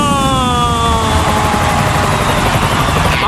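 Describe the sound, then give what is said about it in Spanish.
A sound effect of a Ryanair airliner landing: a loud, continuous engine roar with whining tones that glide steadily downward in pitch throughout, and no voices over it. “El vuelo de Ryanair. 5, 4, 3, 2, 1. ¡Aterriza!”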